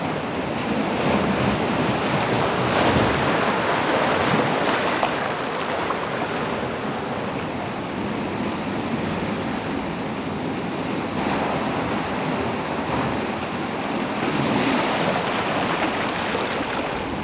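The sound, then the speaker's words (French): Ocean waves at rising tide roll in as a steady, broad roar of surf with gentle surges in loudness and some wind noise. The wash continues unbroken throughout, with no voices. “La marée est montante. Je m'assois. L'océan”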